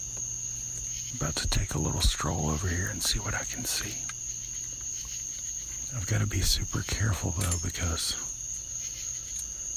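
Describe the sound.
Cicadas chirp at night in a steady, high, unbroken drone that runs through the whole stretch beneath a person talking in a low voice.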